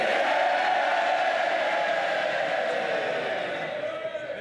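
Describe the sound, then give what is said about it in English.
Labour Members of Parliament cheer loudly as a Labour MP is sworn in: a sustained roar of many voices that holds steady, then eases slightly toward the end. “Mr. Burnham was sworn in to loud cheers from his fellow Labour Members of Parliament.”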